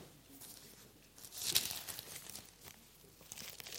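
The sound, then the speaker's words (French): A page of the Bible being turned gives a single brief, soft papery rustle midway through, over faint background hiss. “Il faut que je retourne la page.”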